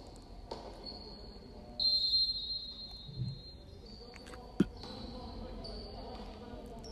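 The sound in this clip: Basketball dribbled during a game: a few faint bounces over a low, steady background, with one sharper knock near the end.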